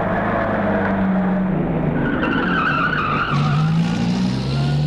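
A car speeding with screeching tyres: loud, continuous engine roar mixed with sustained squealing skids, the tones shifting as the car is pushed fast, with no voices.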